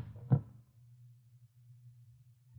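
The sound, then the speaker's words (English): A handgun is tossed onto a table, landing with a single short, dull thud. A faint, steady low hum continues alone afterward. “No, no, I don't need this gun. I'll throw it on the table.”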